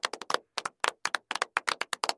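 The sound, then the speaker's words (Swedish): Hand clapping applause for a newly introduced editor: many sharp, separate claps in a brisk, slightly uneven rhythm, sounding like a small group rather than a large crowd, with no talking. “Ja, stor applåd.”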